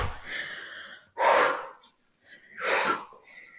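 Deep exhalations during a guided breathing exercise for letting go of bad energy: two forceful, airy breath bursts with a short pause between them, each rising and then fading, with softer breathy sound at the start and end.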